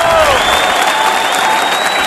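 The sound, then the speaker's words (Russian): Steady, loud applause during a quiz phone-in, with many hands clapping continuously at an even level from start to finish. “Аплодисменты. Наши мальчики-клаустрофобы отбивают свои маленькие ладошки в вашу честь. Аплодируют.”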